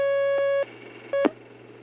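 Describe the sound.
Telephone line tone as a call comes in to a call-in program: a long steady beep, a pause, then a second brief beep cut off by a click, all over a low constant hum.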